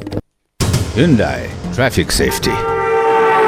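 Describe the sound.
A vehicle horn blares loudly, ending in a long, sustained tone that follows a stretch of busy, mixed noise.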